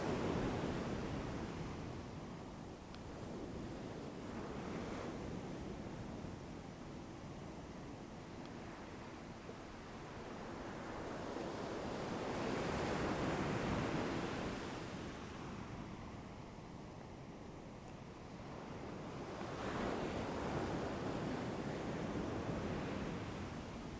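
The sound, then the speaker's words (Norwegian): Ocean waves breaking on a shore make a continuous wash of surf that slowly swells and recedes in broad, unhurried surges, with a soft noisy hiss throughout and no voices. “og lyden av bølgene med inn- og utpust.”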